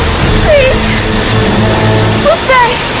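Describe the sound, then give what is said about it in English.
A tidal wave of filthy water floods in and sweeps a woman off her feet, a loud, continuous rushing roar, while voices cry out over the torrent. “Dahlia succeeds in cracking the safety glass with a hairdryer but is then swept off her feet by a tidal wave of filthy water.”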